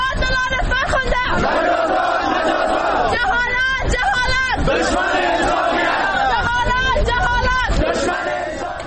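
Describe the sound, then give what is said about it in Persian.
A crowd of thousands protests for Farkhunda outside Afghanistan's Supreme Court, shouting in loud, rhythmic chants. The voices surge in waves and stay forceful and dense throughout. “صدای عدالت خواهی هزاران نفر برای فرخنده، این بار در مقابل استر محکمه افغانستان.”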